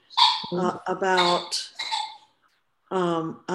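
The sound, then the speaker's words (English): A dog chewing on squeaky toys gives a series of bright, high-pitched squeaks in short bursts, separated by brief pauses, with a longer gap before the last few. “if you hear the squeaking going on, it's my dog chewing on her toys”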